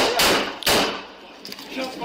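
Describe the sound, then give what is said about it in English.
Police officers fire two sharp, loud gunshots in quick succession at an armed teenager during the Mesquite Charter School shooting, captured on body camera, with lower noise continuing after the blasts. “This is the sound of police trying to talk to the teenager when he picked up the gun and officers fired.”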